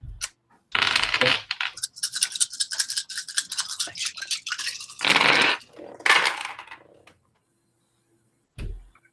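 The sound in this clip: Dice rattle and roll during a tabletop role-playing game: a long clattering run of rapid clicks with a few louder bursts, then a short knock after a pause.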